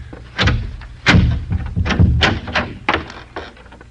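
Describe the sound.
A snap-locked door is worked open with a string of sharp thunks, clicks and knocks in an irregular rhythm. The bangs are fairly loud and come one after another without any talking.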